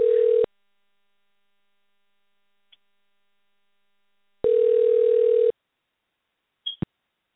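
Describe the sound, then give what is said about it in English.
A telephone ringing tone plays while a call is dialing: two bursts of a steady, single-pitched tone, a short one and then a longer one of about a second, separated by silence and followed by a faint click. “It is dialing. Hopefully it's really dialing and it's not just saying this at this point in time.”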